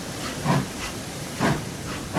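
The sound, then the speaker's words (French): A steam train about to leave the station gives off a few loud hissing bursts of steam over a steady, airy background. “Les voyageurs pour Montréal, en voiture, s'il vous plaît. Bon, montez dans votre wagon.”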